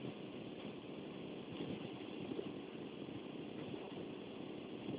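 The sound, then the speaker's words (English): A car engine runs while the vehicle is being driven, giving a faint, steady low drone that holds constant throughout with no speech. “I'm coming to the light because I'm driving.”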